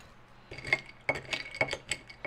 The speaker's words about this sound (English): stir well carefully because I don't want to smash up the ice. Stir with the knife I used to get the orange peel.